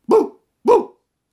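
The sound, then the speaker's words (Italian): A human voice imitates a guard dog barking: two short, loud barks separated by a brief pause, with nothing else heard. “E poi cominciò ad abbaiare, e abbaiando proprio come se fosse un cane di guardia, faceva con la voce: «Bu, bu!”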